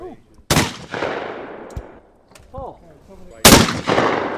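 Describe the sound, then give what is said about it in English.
Two loud gunshots fired at a shooting range, each a sharp blast with a long fading tail, about three seconds apart. “Shot guns at three different ranges.”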